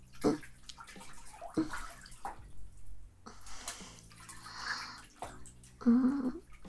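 Water splashes and sloshes in a bathtub as people bathe, with a few louder splashing bursts over a continuous watery wash.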